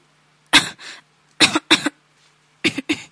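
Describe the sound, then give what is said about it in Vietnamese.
Soft coughing from a man covering his nose while something burns, several short, husky coughs grouped in three small clusters separated by quiet gaps. “bỗng nghe Trình Nhất Tạ ho khẽ”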